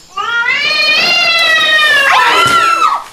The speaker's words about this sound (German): Was war das denn? Riesig jedenfalls. Das war eine Katze. Muss eine Wildkatze oder ein Luchs gewesen sein.